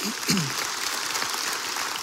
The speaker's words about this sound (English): One more big round of applause.